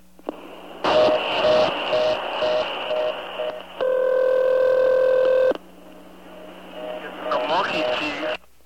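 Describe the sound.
A telephone line rings with one steady, buzzing ring tone lasting a couple of seconds, while teenagers talk in the background before and after it over a faint line hum.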